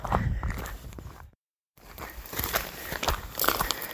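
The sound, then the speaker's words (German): Footsteps of people walking downhill on a mountain trail, a steady run of scuffing, crunching steps that cut out briefly near the middle and then resume. “Und laufen jetzt in Dreiviertelhosen hier den Berg runter zur nächsten Dose.”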